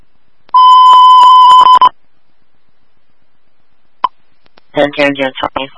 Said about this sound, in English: That's the phone, sir.